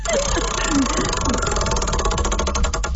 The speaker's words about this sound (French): Fait que je vais tourner la roue pour toi.